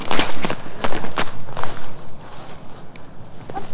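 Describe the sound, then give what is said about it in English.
Footsteps move around inside a hedge, with many irregular crunching and rustling steps through the dense branches and leaves. The sound is loud and continuous, with no voices. “Come on, let's walk around inside this hedge.”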